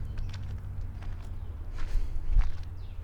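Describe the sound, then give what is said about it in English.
Uneven footsteps of someone walking with a pronounced limp, faint and soft, a series of irregular steps with a slightly heavier footfall near the end. “All right, so now we're walking down towards the big blind. And I seem to be walking with a pronounced limp.”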